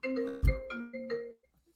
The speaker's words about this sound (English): Come on, we're live. Turn off your phone.